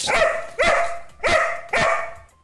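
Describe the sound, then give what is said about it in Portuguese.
A hurried dog barks four times in a quick, fairly even rhythm, each bark a loud, bright burst with a short tail, and no talk. “quem tá aqui comigo é um cachorro apressado.”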